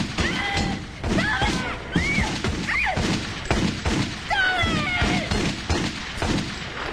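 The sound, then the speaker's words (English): A kick against a door and gunshots fired through wooden wallboards: many sharp bangs and heavy thumps in quick, uneven succession, loud and harsh throughout. “kicks the unmoving door, then fires her gun through the wallboards.”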